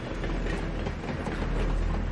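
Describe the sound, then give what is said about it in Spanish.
A train passing by rail tracks rumbles loudly with a steady clatter of wheels on rails, a continuous heavy roar holding even throughout with no voices. “Pasa un tren.”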